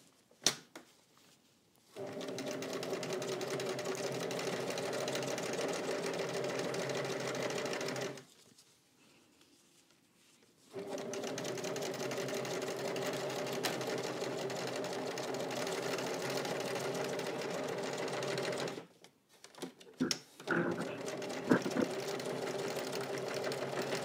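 A sewing machine stitches fabric in two long, steady runs of rapid mechanical whirring separated by a pause, followed by a few short, stop-start bursts.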